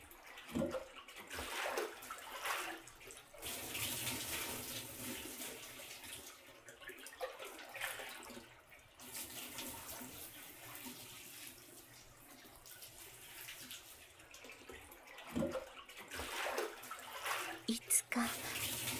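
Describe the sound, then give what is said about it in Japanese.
Bath water is poured to rinse someone, giving a continuous soft wash of splashing and running water with a few louder surges, while a quiet voice whispers over it. “さあお流しいたしますわね。”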